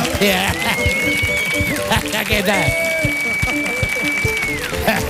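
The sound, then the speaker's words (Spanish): Audience applause welcoming a professor who is about to give a lecture, with clapping running throughout and voices mixed in over it. “Fuerte el aplauso también para Mark Lenders, por favor, nuestro catedrático que va a llevar a cabo la disertación.”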